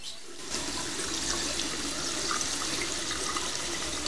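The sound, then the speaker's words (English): Water running from sink taps just turned on in a men's restroom, an abrupt steady gush that starts after a short quiet moment and continues as an even, loud hiss with no talk. “looks at his reflection and turns on the taps”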